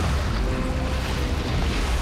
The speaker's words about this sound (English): Jamie pulls him out and the RV slowly disappears into the water.